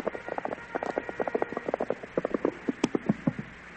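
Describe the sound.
Hoofbeats of a squad of soldiers' horses riding up: many quick, irregular clip-clop beats, fairly steady and moderately loud throughout.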